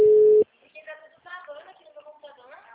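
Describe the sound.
Telephone tone after a dropped call: a single steady, mid-pitched beep lasting under half a second, followed by a person speaking.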